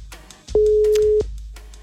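Telephone ringback tone during a call: one loud, steady, mid-pitched tone held for well under a second, with quieter background sound before and after it.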